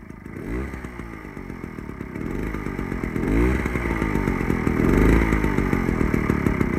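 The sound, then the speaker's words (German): A moped engine running with a steady buzzing drone whose pitch swells repeatedly as it revs, growing gradually louder toward the end. “Hören wir uns diese Geräusche doch mal alle gemeinsam an, damit wir sie dann unterscheiden können, wenn es drauf ankommt. Also, zuerst das Moped.”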